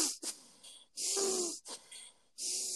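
Slow, even breathing in and out, a few airy, hissing breaths alternating at a steady pace, each lasting roughly half a second with brief pauses between them, soft and close with no talking.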